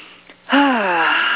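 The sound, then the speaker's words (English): A deep breath during a guided breathing exercise, heard as a long, loud, voiced exhale with a steady, slightly falling tone after a quieter start. “take a deep breath, if you would please, and so I can take a breath with you.”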